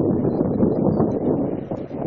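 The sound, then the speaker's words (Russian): Wind buffets a microphone in a continuous loud, low rumbling roar while someone speeds down a big slope, with no break across the whole stretch. “Ветер мне бьет в лицо, я думаю, он бьет вам этот микрофон, вот этот шум.”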